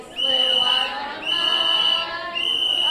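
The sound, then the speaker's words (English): Three blasts of orange plastic whistles blown at a rapid-response training in a church: shrill, steady high tones, each lasting under a second, separated by short gaps. “They began with blowing orange plastic whistles, three short blasts, alerting neighbors ICE agents are in the area.”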